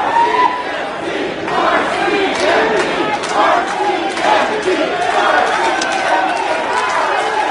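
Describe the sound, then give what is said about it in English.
A crowd at a Surrey City Hall meeting shouts and roars in a loud, continuous mass of voices, with swells of yelling rising and falling throughout. “That's not the sound of a protest rally on the front steps of the legislature. That's actually Surrey City Hall last night.”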